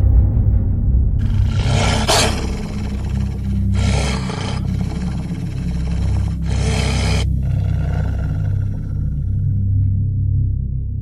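Wolves growling: a continuous deep, rumbling snarl with several harsher, noisier roaring surges layered on top, loud throughout with no talk.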